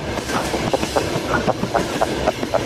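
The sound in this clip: A train running on rails, a loud continuous rumble carrying a steady, rapid clickety-clack of wheels over track joints; no voices.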